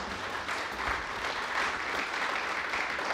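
Studio audience at a live radio show applauding, a thick, sustained wash of clapping that holds steady and fairly loud for about three seconds.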